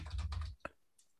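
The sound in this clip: Typing an email on a computer keyboard: a dense burst of clattering keystrokes, then one sharp isolated key press and a faint final tap.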